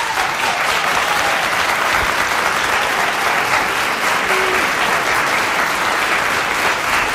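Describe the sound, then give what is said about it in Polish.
Audience applause at a concert by the Jan Ptaszyn Wróblewski jazz quartet in a studio, a dense, steady sheet of clapping that holds at an even level from start to finish. “Dziękujemy pięknie. Ja bym z tymi oklaskami na wszelki wypadek jeszcze trochę poczekał”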